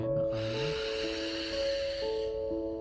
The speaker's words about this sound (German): Atme ein.